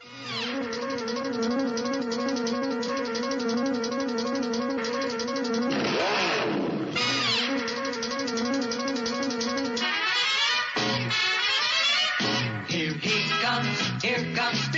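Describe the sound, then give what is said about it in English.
A cartoon car-racing theme song plays loudly and continuously: sustained tones are layered with a raspy, engine-like revving texture, and a sweeping pitch glide comes partway through. No voices speak. “He's a demon on wheels. He's a demon and he's gonna be chasing after someone. Yeah. That was Speed Racer.”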